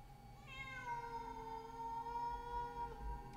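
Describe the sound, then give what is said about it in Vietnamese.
A cat meowing at night gives one long, drawn-out, quiet meow, a clear tonal cry that swells in after a moment and holds for a few seconds over a low background rumble. “Thì nghe ấy là tiếng con mèo nó kêu. Mà khổ, trong đêm vắng, nghe tiếng con mèo kêu đến não lòng.”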